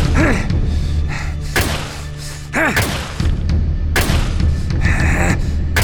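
Pistol shots loaded with blanks are fired repeatedly: several sharp, heavy bangs burst out at irregular intervals over a dense, loud, continuous background.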